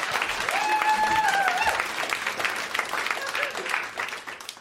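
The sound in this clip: An audience applauds as a storyteller is welcomed to the stage. Full, steady clapping runs throughout, with a whooping cheer-like voice rising above it early on before the clapping carries on alone.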